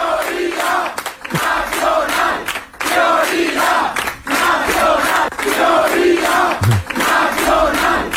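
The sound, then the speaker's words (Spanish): Vox supporters chant a slogan on election night, a loud crowd repeating the same rhythmic phrase several times, with short gaps between the rounds of chanting. “El sonido de la noche electoral estuvo en los cánticos de los simpatizantes de Vox.”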